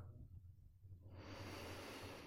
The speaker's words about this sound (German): nimm hier noch einen tiefen Atemzug.